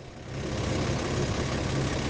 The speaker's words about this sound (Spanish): coger un autobús, este que suena, y viajar hasta el pasado